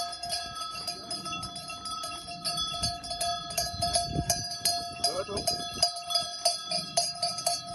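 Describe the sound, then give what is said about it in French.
A small bell tinkles with bright, ringing tones and irregular light clinks throughout, over a low rumbling background, announcing a shepherd. “On vient d'entendre le tintement de clochette”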